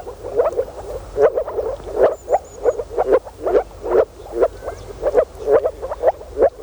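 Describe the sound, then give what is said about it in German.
Moor frogs call in a dense chorus, short low croaking pulses repeating rapidly and fairly evenly throughout, fairly loud with no voices. “Das hier sind Moorfrösche.”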